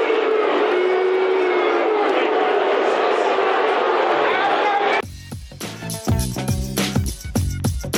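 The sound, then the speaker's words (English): A sports crowd cheers the teams off at halftime and boos the umpires, a loud, dense, sustained roar that holds for about five seconds, then stops abruptly and gives way to other, choppier sounds. “the crowd cheering off the teams at halftime and then appropriately booing the umpires.”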